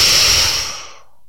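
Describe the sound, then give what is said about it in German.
A forceful, explosive exhale after a held breath, pushed out like a cannon shot during a breathing exercise. A loud, breathy rush starts at full strength and fades over about a second into silence. “Nochmal, atme tief ein, halte und kanonenschussartig ausatmen.”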